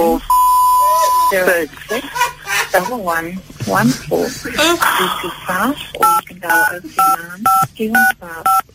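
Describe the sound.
Telephone tones as a call is transferred to another department: a steady beep at the start, then people talking, then a rapid series of keypad dialing beeps near the end.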